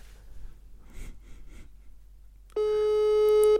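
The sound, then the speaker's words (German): A WhatsApp call ringing tone: a steady, buzzing tone with strong harmonics starts suddenly after about two and a half seconds of faint breathing noise and holds at an even level to the end. “Ich rufe über WhatsApp an.”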